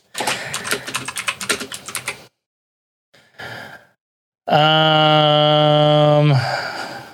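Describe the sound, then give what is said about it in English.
Rapid typing on a computer keyboard clatters loudly for about two seconds in dense, uneven keystrokes. After a pause comes a brief burst of noise, then a long, steady, sigh-like vocal groan. “I can't type for shit.”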